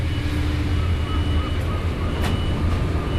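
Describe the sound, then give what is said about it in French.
Ambient noise of the industrial maritime quay at the port of Marseille, where ferries leave for Corsica and Algeria: a steady low rumble and hum, with a brief hissing burst partway through. “Nous sommes donc sur le quai industriel maritime de Marseille. C'est à cet endroit-là aujourd'hui que partent les ferries pour la Corse, pour l'Algérie,”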